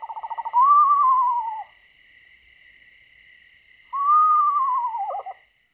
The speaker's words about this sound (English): That is the sound of an eastern screech owl. Has two calls, a kind of whinny and then that hooting call.